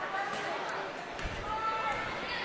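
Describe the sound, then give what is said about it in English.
Low thumps of a basketball being dribbled on a high school gym floor during a game. They are partly buried under constant crowd noise and voices. “So Martin now will dribble it up after a couple dribble handoffs.”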